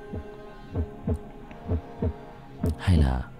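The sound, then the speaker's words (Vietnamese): A pounding heartbeat sound effect, low muffled thumps mostly falling in lub-dub pairs at a steady, tense rhythm, with the final beat louder and heavier than the rest. “Lúc này trái tim của Thắng đập phình phịch trong lồng ngực.”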